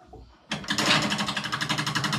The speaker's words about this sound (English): Now that brings us to spinning the wheel.